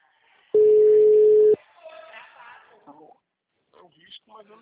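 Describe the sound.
An outgoing phone call gives one steady, mid-pitched ringback tone lasting about a second, followed by quiet stretches and a few faint bursts of voices on the line.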